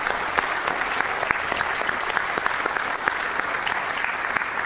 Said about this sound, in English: Please give them a hand. Welcome.